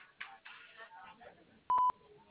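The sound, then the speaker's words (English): A voicemail recording tone sounds once as a brief, loud, steady electronic beep right after a recorded voice prompt, heard over a narrow phone line. “At the tone, please record your message.”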